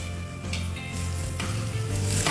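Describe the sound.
Onion sautéing in a pan, a steady, loud sizzling hiss with a few brighter bursts as it is stirred.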